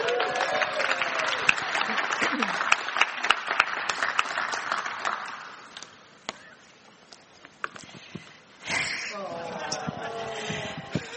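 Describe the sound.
Applause from a gathering welcoming a woman invited up to read a Bible passage, with dense clapping for about five seconds that thins out and fades, followed by a voice beginning to speak.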